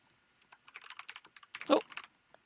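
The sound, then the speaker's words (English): Fast, light clicking of typing on a computer keyboard: many quick keystrokes in uneven bursts, mostly faint, with one louder cluster of taps partway through. “I'm going to type and see if you're there.”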